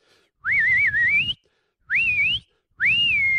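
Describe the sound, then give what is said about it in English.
A person imitates the loud, piercing whistle of a concert crowd member, giving three sharp whistles. Each rises in pitch; the first is longest and wavers before climbing, and the later two are shorter, with silence between them. “you can hear a guy who's got a really loud whistle. He's like,”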